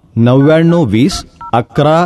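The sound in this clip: Telephone keypad tones of a number being dialed: a short dual-tone beep sounds between stretches of a voice talking.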